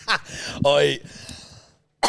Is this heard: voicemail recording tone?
no

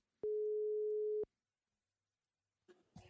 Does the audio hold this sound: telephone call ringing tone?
yes

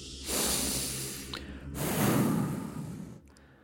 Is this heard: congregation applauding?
no

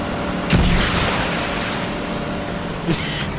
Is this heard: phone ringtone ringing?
no

